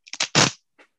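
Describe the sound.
A regular piece of ripstop fabric is torn by hand in several quick, rasping bursts, building to one louder rip and ending with a faint final snag.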